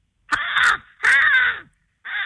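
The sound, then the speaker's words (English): An American crow caws three times: harsh, raspy calls separated by short pauses, loud and alone, with the third caw cut off at the end. “The American Crow.”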